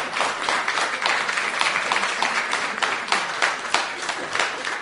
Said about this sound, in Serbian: morat će aplauze duže da traju dok pesnik nađe sledeću pesmu.